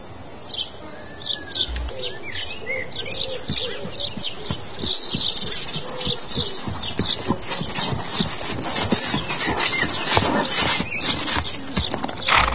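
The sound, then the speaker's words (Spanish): A mare's hooves clip-clop in many irregular steps that grow louder toward the end. “Mira, aquí está ya la yegua, mira qué linda.”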